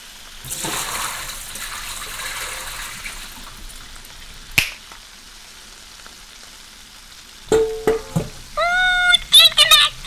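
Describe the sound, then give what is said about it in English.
Boiled potatoes are drained, with hot water rushing and splashing steadily for a few seconds. Later come a sharp click and a burst of brief clattering, squeaky sounds. “There, those potatoes are ready now. Let's drain them.”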